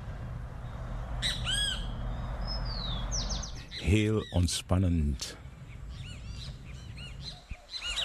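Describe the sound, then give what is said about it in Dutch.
Calls of a kritjebi bird in the Surinamese rainforest: sharp, high chirps and squawks repeat over a steady low rumble of forest ambience, and a voice speaks briefly in the middle. “Ik neem u terug in de forest, oerwoud van Suriname. Daar hoort u de kritjebi.”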